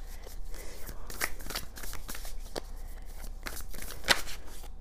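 Tarot cards shuffled and drawn from a deck: many crisp, papery riffles and flicks in irregular bursts, with one sharper snap of cards near the end. The sound is fairly quiet and close.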